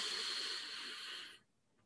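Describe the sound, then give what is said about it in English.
A deep breath drawn in during a guided breathing exercise and held below the navel: one long, steady, breathy inhalation that stops abruptly, followed by near silence while the breath is held. “So what we're going to do is take three really deep breaths and then hold each one of them below the navel. So go ahead and inhale deeply.”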